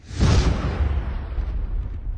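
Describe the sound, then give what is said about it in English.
A massive explosion shakes building walls at a combat outpost in Ramadi, Iraq: a single loud, deep boom bursts out, then rumbles and slowly fades over about two seconds. “A massive explosion shook the walls of the building I was sitting in, right in the middle of Combat Outpost, or COP, Falcon.”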